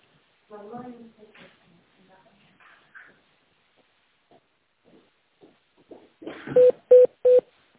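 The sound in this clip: Telephone dialing tones as an office phone call is transferred. Brief, quiet speech comes first, then three short, loud, evenly spaced beeps at the end.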